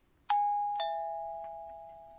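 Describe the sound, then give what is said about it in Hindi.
An electronic two-note bell chime of the kind a quiz host sounds for a correct answer: a bright higher tone, then a lower one half a second later, each ringing on and fading slowly. “ये घंटी की आवाज है। जापानी भाषा में इसके लिए शब्द है पिंग पोम।”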